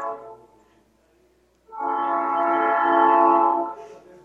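Horn of a noisy, loaded freight train carrying bran during the harvest in Bahia: a faint short tone, a moment of quiet, then a loud sustained horn blast lasting about two seconds before cutting off.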